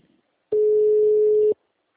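A telephone ringback tone plays while a call connects: one steady, even mid-pitched beep lasting about a second, heard alone with quiet before and after.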